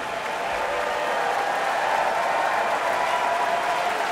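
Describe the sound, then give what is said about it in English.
Concert audience in Marian Anderson Hall applauding the Philadelphia Orchestra after a Stravinsky performance, a dense, sustained wash of clapping that keeps a steady, even loudness from start to finish. “The audience here in Marian Anderson Hall is showing their full and enthusiastic approval.”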